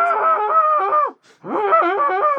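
A man screams as he forces his bones back into place: two long, loud, strained and wavering cries separated by a brief pause.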